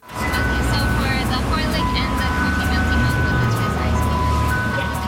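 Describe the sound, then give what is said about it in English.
Tinny melody of an ice cream truck jingle in Richmond, British Columbia, a bright tune running continuously over a steady low rumble. “the sound of summer in Richmond, British Columbia. An ice cream truck doling out cone after cone of soft serve.”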